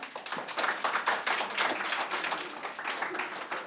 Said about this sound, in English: thought I'd pause for the applause, thank you.